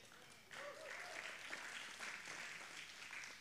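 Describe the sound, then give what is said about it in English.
A crowd cheers and applauds, bursting in abruptly after a brief quiet moment and continuing as a steady, faint wash of clapping. “Let's see if this works. They cheered for you.”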